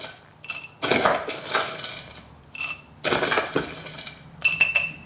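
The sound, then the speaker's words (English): Crushed ice being put into a cocktail glass for a keto mojito, heard as several rattling, crunching bursts with bright glassy clinks, fairly faint. “And then get some, and then get some crushed ice. Put loads of that in.”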